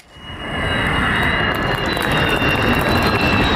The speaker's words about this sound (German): Februar 24, Jungfernflug des Tarnkappenjägers Khan, made in Türkei. Nur das Triebwerk muss aus den USA zugekauft werden, noch.